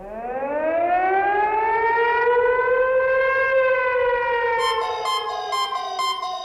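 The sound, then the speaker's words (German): A civil defense siren wails during a test alarm, a loud, steady tone that climbs in pitch and then holds its long, even wail, with a series of high beeping tones joining near the end. “wenn Sie eine Sirene heulen hören oder Ihr Handy plötzlich Alarmtöne von sich gibt”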